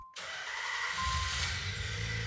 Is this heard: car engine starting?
yes